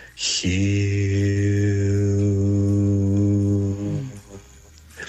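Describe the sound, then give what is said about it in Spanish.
A sung spiritual chant of HU: one long, steady, low-pitched vocal tone held for about four seconds, with no other sound around it. “Se llama el canto de Hugh. La palabra Hugh se escribe H-U, se pronuncia J-I-U, suena así.”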